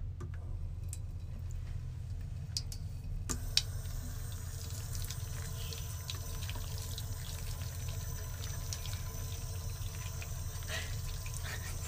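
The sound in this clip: Running tap water as something is washed under it, a faint, steady hiss that thickens after the first few seconds, with light ticks and small clinks scattered through it.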